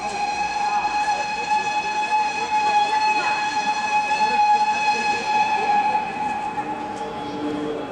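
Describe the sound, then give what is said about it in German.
A train at a railway platform gives off a long, steady, high whistling tone with layered harmonics, held unbroken for the full eight seconds over a dense, rumbling background noise. “Ich stehe auf dem Bahnsteig.”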